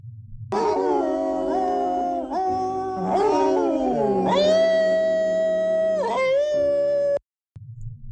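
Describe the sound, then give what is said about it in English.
A chorus of dogs howls in a 1955 animated film, sung by a human vocal group imitating the howls. The loud, sustained, harmonized tones waver and slide up and down in pitch for about seven seconds, then stop abruptly. “These dogs doing the chorus.”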